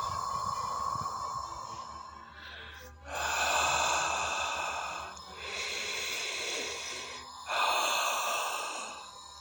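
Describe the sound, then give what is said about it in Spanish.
Slow, deep breathing during a guided relaxation exercise: soft, airy inhales and exhales rise and fall in long, even swells, about three full breaths, quiet and unhurried, with no talking over them. “Sigue inhalando. Sigue exhalando.”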